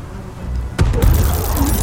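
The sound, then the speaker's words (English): Magic missile spell damage lands in a video game: a sudden loud burst of impact noise, then a second hit a moment later, trailing into a dense, rumbling crackle. “Shoot, I'm gonna take a lot of magic missile damage here.”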